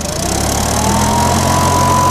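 An enclosed outboard motor runs from idle toward full throttle, giving a steady, loud mechanical drone whose pitch creeps slightly upward over the few seconds.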